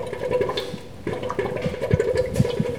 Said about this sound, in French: Ah ouais, ça fait des bulles. C'est le gaz qui est produit par la fermentation.